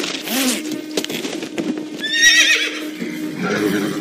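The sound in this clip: A horse, the mount of a rider training for Olympic competition, whinnies with a loud, shrill, quavering neigh among clopping hooves, with another harmonic call near the start.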